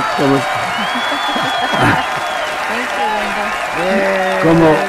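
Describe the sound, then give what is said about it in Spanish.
Audience applause for a comrade at a community radio station, a dense steady wash of clapping with voices audible over it throughout. “Entonces, un aplauso, por favor, para el camarada. Bravo, porque bravo.”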